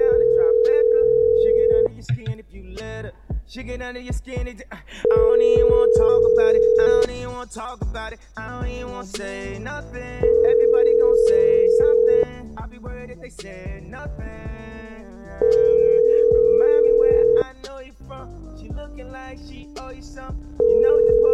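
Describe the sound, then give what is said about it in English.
Ringback tone of an outgoing telephone call, a steady mid-pitched tone lasting about two seconds and repeating roughly every five seconds. Four full rings sound and a fifth begins, with people talking in the gaps. “Can everyone hear the ringing? Tell me if it's working. I hear ring. It's working.”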